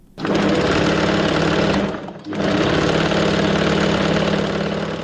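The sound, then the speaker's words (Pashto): A tailor's sewing machine in Kabul runs in a loud, even mechanical whir, stops briefly about two seconds in, then starts again and runs steadily to the end. “د مشق الله د خیاطۍ د ماشین غږ دی”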